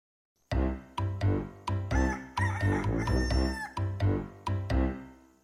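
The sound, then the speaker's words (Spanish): A voice imitates a rooster crowing over lively music, with a rapid run of repeated high syllables, a longer held stretch in the middle, then a few more clipped calls. “Ya viene el gallo con ki ki ki ki ki ki ki ki ki ki ki ki.”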